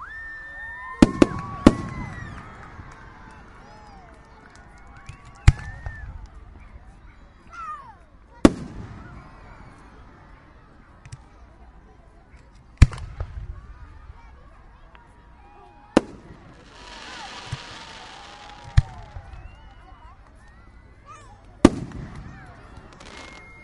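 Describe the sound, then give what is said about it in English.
Fireworks at a ground display heard up close: many sharp, heavy bangs at irregular intervals of a few seconds, each standing out loudly over a lower background of crackle and hiss. “Watching a ground display here.”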